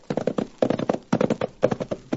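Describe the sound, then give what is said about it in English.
Horse hooves clip-clopping on a tough ride up into the hills toward a small mining boom town, a brisk, rhythmic pattern of hoofbeats in repeated clusters, fairly loud and alone. “Cherokee talked me into riding from Dos Rios up into the hills where Scott's Diggings was located. It was a tough ride”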